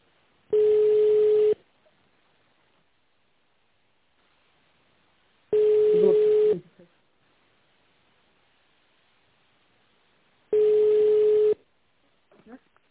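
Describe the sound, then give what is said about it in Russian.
A telephone line tone sounds three times, each a steady mid-pitched beep about a second long with roughly four seconds of silence between, followed by a faint click at the end. “Наберите внутренний номер абонента или дождитесь ответа оператора.”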